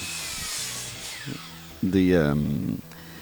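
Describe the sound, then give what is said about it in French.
A circular saw from a neighbour's renovation work whines in one brief, loud burst that rises and falls in pitch, behind a talking voice. “si t'entends des scies rondes, là, c'est normal. Là, le voisin à côté de nous fait des rénovations.”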